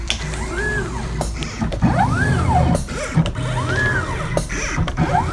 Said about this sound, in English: A listener in Armonk, New York, sent us this sound of their mat cutter from their framing shop